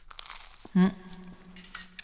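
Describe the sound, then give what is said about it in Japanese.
One loud crisp crunch as someone bites into crispy toasted bread topped with corned beef seasoned with mentsuyu. The short sharp crackle stands out against quiet surroundings. “このパンのカリカリ感がもう美味しそう、そう、ね、いただきます。”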